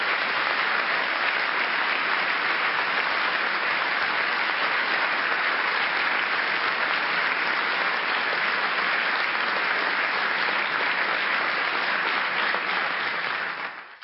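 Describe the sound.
Audience applause welcoming a debate speaker, a loud, steady wash of many hands clapping that holds evenly for about fourteen seconds before tapering off at the end.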